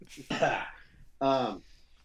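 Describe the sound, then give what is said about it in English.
Two harsh, throat-clearing coughs come from a person whose cranberry juice went down the wrong way. Each cough is a short, loud burst, and near quiet separates them. “excuse me, my cranberry juice went down the wrong way”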